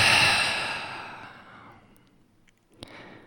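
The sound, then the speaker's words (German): A deep breath out through the mouth while lying down in a guided relaxation: a long, soft rush of air that starts fairly strong and fades away over about two seconds, followed by near-silence and a faint brief sound. “Atme tief ein durch die Nase. Aus durch den Mund.”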